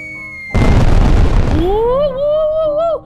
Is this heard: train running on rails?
no